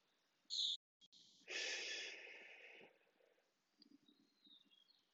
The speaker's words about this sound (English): Use your mouth to breathe. Breathe in again.